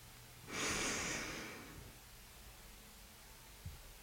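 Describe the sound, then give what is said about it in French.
A deep inhale through the nose, taken as part of a guided breathing exercise, comes as a soft, airy rush lasting about a second. It tapers off into near silence. “Inspire”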